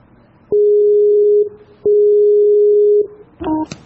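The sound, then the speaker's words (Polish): Telephone ringing tone while placing a call: two long steady beeps of about a second each with a short gap between, then a brief burst of other sound at the end, with no talk. “Próbujemy zadzwonić.”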